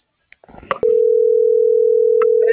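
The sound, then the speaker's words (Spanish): A telephone dial tone heard while a number is being dialed: a few short clicks and rustles, then a loud, steady, unbroken mid-pitched tone that holds to the end, with a couple of brief blips over it near the close. “Yo estoy marcando.”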